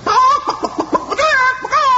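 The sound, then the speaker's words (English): A voice imitates a great yellow hen as big as an ostrich, with a run of short, quick clucks followed by longer, wavering, pitched squawks, loud and close throughout. “Inside it was a great yellow hen, big as an ostrich, and the giant set it on the table.”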